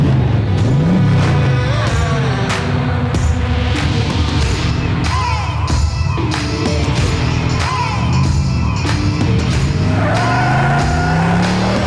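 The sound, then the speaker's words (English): A car engine revving hard, loud and continuous, its pitch surging up and dropping back through repeated throttle bursts. “Let's rev it.”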